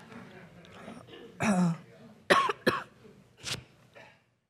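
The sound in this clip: A person coughs and clears their throat after pollen drifts through the air. Soft throat noises lead into a few short, sharp cough bursts, separated by brief pauses.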